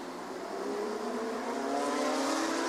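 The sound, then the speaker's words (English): Porsche flat-six race car engines roar at the Zhuhai circuit, a continuous, fairly faint drone whose pitch climbs slightly as the cars accelerate, with no voices over it. “And there's an awful lot of flat sixes here at Zhuhai this weekend.”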